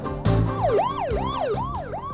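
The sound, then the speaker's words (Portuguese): A wailing siren sound effect rises and falls in pitch in repeated sweeps, about four cycles, loud and continuous, with a dense layer of other sound underneath. “Sobe a sirene!”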